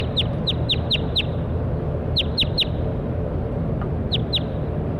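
Bird calls: bright, high chirps that sweep downward, in short clusters of about five, then three, then two, over a steady low background rumble.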